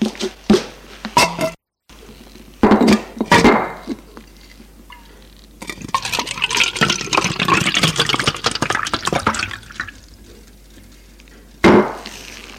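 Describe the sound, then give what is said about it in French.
Water poured into a glass in a bedroom, a steady trickling pour lasting several seconds, preceded by a few short knocks or clinks. “Lui sert un verre d'eau.”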